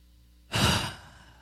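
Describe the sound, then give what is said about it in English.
A single deep breath forms one soft, breathy rush of air lasting about half a second. It is moderately loud and fades out gradually, with no talk around it. “Everybody, take a very deep breath.”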